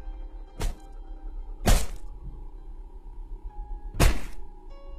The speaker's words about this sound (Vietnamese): Tay nó giơ cao cục đá, rồi liên tiếp đập lên đầu chị.